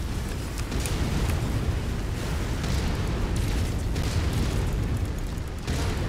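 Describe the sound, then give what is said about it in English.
Explosions in a video game as destructible environments are blown up: a continuous, loud roar of rumbling booms with a few sharper bursts breaking through, and no voices. “You can blow up everything. I like that. Oh yeah, destructible environments are pretty cool.”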